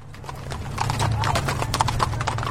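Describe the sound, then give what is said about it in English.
Horses' hooves clip-clop as eight Mexican cowboys in sombreros ride through a small town at dawn. Many steady, overlapping hoof strikes sound over a continuous low hum. “8 Mexican cowboys on horseback, wearing sombreros, riding through a small town at dawn.”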